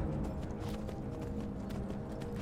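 The horse Shadowmere gallops in the video game Skyrim. Rapid hoofbeats clip-clop in a steady run throughout, fairly quiet.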